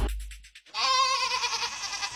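A goat bleats in one long, wavering, nasal cry that follows a short run of rhythmic pulses.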